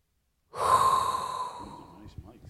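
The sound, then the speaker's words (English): A deep inhaled breath taken on purpose, a single long airy hiss that starts abruptly, holds steady and then slowly thins out over about a second and a half. “So there's only one thing left to do, and that is inhale a hot breath”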